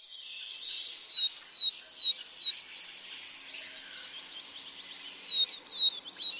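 Marsh tit song: short, high, downslurred whistled notes repeated in quick succession, in two loud bursts separated by quieter twittering.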